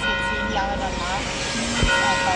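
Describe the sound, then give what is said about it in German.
Church bell ringing on the main square in Graz, Austria, on a morning during a minute of silence: steady, sustained bell tones hold through the whole clip at an even loudness. “Nur die Kirchenglocke bleibt nicht still an diesem Vormittag auf dem Hauptplatz in Graz.”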